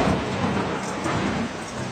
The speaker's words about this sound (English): Just then, she noticed it was starting to rain outside. I sure hope they sealed in the skylight. Then it began to rain really hard.